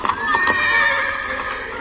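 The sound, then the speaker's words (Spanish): Horses of ghostly riders galloping through castle halls in a fantasy film give a loud, drawn-out whinny. The neigh is shrill and wavering and fills the whole moment. “Los jinetes fantasmas cabalgan por los salones del castillo.”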